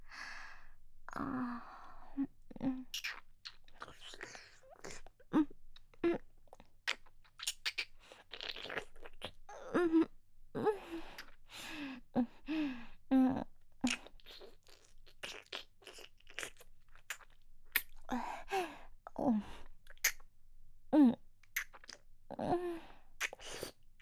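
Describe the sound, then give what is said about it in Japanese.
ASMR ear cleaning, with many crackly, crunchy clicks and rustles close on the ear in an irregular stream, broken by soft sighs. “こちらの耳も堪能じゃなくて、お掃除させていただきますね。”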